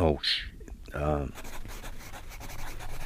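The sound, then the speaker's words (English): A pen scratching as a name is written down during an aphasia group session, a continuous soft rubbing and scraping that follows a moment of talking at the start. “So you're writing down the name of one of the people in the group?”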